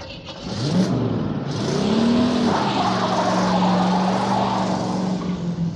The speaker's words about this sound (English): But the van drove off.